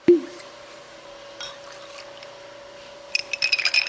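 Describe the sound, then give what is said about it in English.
A cocktail is stirred at a distillery: a sharp clink opens, then a steady faint hum, and near the end a quick run of light, glassy clinks. “That's the sound of a Made in Haines cocktail being stirred at the Port Chilkoot distillery.”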